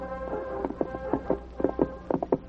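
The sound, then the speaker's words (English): Horses' hooves clip-clop as riders ride east, with many quiet, uneven knocks falling in loose clusters over a low steady hum. “Slim Northcott and his two companions rode east to await the eastbound locomotive and tender”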